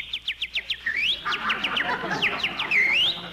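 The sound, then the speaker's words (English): A small bird sings in spring, beginning with a quick run of rapid high chirps and moving into warbling whistled notes that rise and fall, over a faint noisy hiss. “listen to that little birdie singing”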